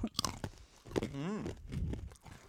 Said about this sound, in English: Yeah, but this looks like, this is like peanut brittle, but it's larvae brittle. Yeah, it's, definitely a new adventure. Okay, here we go.